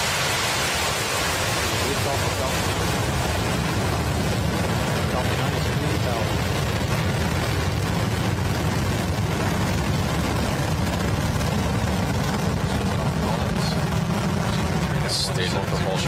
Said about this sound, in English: The flight was again launched from Pad 39A at the Kennedy Space Center. Falcon 9 is configured for flight.